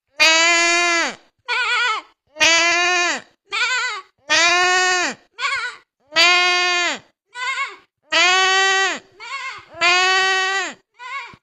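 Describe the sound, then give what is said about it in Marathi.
A person imitates a sheep bleating, with a voice producing many nasal, wavering baa calls that alternate long and short bleats in a steady rhythm with brief gaps between them. “आता आम्ही मेंढीचा आवाज काढून दाखवणार आहे.”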